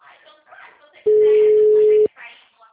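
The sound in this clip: Telephone busy-signal tone: a single loud, steady, mid-pitched beep lasting about a second, with talk before and after it.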